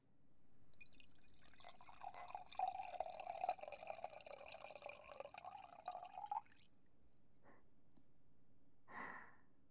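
Grape wine poured into a glass, a soft, steady trickling stream lasting about six seconds and staying faint throughout, then a few quiet, scattered sounds after the pour stops.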